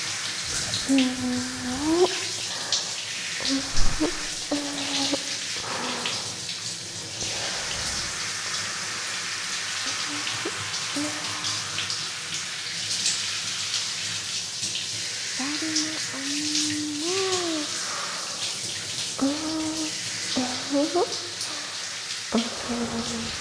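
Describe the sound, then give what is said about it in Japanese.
Water poured to rinse a person's back, a steady splashing rush that runs for the whole stretch at moderate loudness, with brief louder spatters now and then. “後ろも流しますね。”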